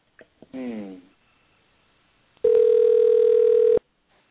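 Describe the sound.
A telephone tone sounds while someone is calling back a dropped call: one steady, unbroken mid-pitched beep of about a second and a half, clear and loud, after a short earlier burst of sound.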